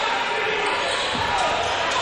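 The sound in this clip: A basketball is dribbled during a high school game between George Ranch and the Broncos; the bounces are soft and blend into steady, dense crowd noise.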